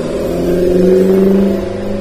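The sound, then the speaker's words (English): Cars driving past on a road, a steady low engine drone with a mid-pitched hum that swells slightly in the middle and then eases, continuous and fairly loud, with no voices. “sorry, there's all these cars.”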